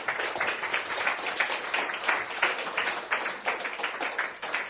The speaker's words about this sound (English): Thank you for your applause.